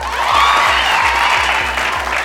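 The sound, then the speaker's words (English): Studio audience applause breaks out, a thick wash of many hands clapping over a low, regularly stepping bass tone, loud and steady for a couple of seconds. “Why are you all clapping?”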